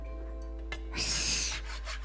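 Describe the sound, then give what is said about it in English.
A scraper works steamed wallpaper off a wall, one brief, rough rasping stroke over a low steady hum, faint overall and with no voices. “Scrape, scrape, scrape. And another layer is free, steamed and stripped off the wall like the rings of a tree.”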